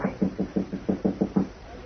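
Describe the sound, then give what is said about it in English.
Soft knocking on a bolted door: a quick, evenly spaced series of about eight muffled, low raps that stops abruptly, leaving near silence at the end. “I'll try the door. Okay. It's bolted. Oh? All right, try knocking, but softly.”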